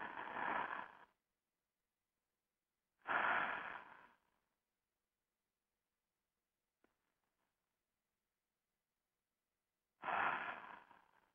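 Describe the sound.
Deep, slow breaths from a guided breathing exercise: three long, airy rushes of breath, each about a second long and separated by stretches of silence, with no talking.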